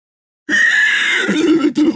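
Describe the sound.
A horse neighs wildly: one long, loud, shrill whinny that wavers in pitch, with a brief break near the end. No other sound accompanies it.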